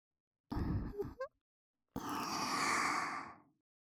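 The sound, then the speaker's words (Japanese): Warm breath blown into the ears: two breathy exhalations, a shorter one and then a long, steady, sigh-like blow that fades out. “お耳の中をあったかい吐息でいっぱいにして、”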